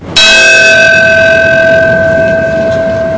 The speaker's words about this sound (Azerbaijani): Zəng səsi yerli vaxtla səhər saat 8:46-da 11 sentyabr hadisələrinin baş verdiyi vaxtda eşidildi.